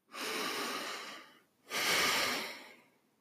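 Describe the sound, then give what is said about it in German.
A deep breath in and then out during a guided relaxation exercise: two long, soft, airy breaths with a short pause between them, quiet and heard alone. “atme noch einmal tief ein und aus.”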